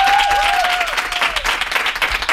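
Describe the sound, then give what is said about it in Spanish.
Loud, continuous applause from an audience welcoming a guest onto a show, a dense, steady wash of clapping that holds at an even level throughout. “Un aplauso para Laura Márquez.”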